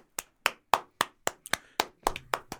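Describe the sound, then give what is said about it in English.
Hands clapping in an even, steady rhythm: a run of sharp, crisp claps spaced about a quarter second apart, heard on their own with no talk. “We got to clap for that”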